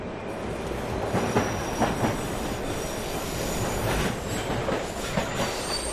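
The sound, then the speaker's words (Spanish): Valencia metro train running on restored track after flood damage, a continuous heavy rumble with high, thin wheel squeal and rhythmic clatter over the rails, steady in loudness, with no voices. “El sonido que se esperaba desde hace meses en las 20 estaciones y apeaderos de metro de la zona cero de la Dana.”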